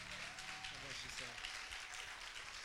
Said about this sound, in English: Would you give him a hand? A Promise Center welcome.